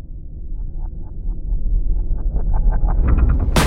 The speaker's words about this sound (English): out of the darkness, a huge arrow is shot from the ground, collides with the airship, shattering large pieces of the deck